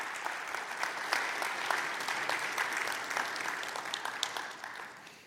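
Sustained applause from a church audience at Central Assembly of God welcomes a guest preacher, a dense, steady patter of many hands that holds evenly and then tapers off at the end.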